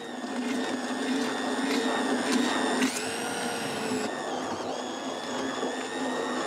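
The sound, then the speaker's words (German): A machine purees fish to make fermented fertilizer, giving a loud, steady motorized whir with high whining tones that shift in pitch partway through. “Der Fisch lagert mehrere Wochen in der Tonne und fermentiert. Doch vorher wird er püriert.”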